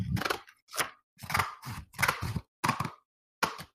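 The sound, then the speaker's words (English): Scissors cut through thick card in a series of crunchy snips, uneven bursts separated by brief pauses. “see that card you're cutting is too thick for magic”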